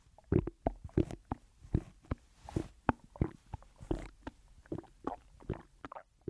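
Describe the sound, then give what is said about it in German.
A gurgling stomach, picked up by a microphone held to the belly, gives many faint, irregular bubbling pops and squelches. They come in quick clusters separated by short quiet gaps. “Ich habe nämlich so ein Gluckerbauch. Ich höre das die ganze Zeit. Ich halte mal mein Mikrofon ran. Ja, das ist bei meinem Bauch und er macht...”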